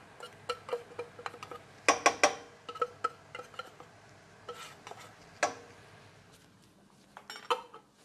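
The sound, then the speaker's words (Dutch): A dish of courgettes is set into an oven with faint clinks, taps and knocks of cookware. The sounds come scattered and irregular, with a few louder clatters standing out from the quiet. “ik zet die nu alvast in de oven terwijl ik met de saus bezig ben.”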